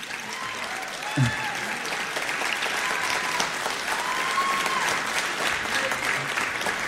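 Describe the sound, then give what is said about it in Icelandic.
Audience applause for a big band and its conductor, a dense, steady roar of clapping that holds at an even level without a break. “Til hamingju. Klappið fyrir þeim og þeir stilla sér upp í mynd.”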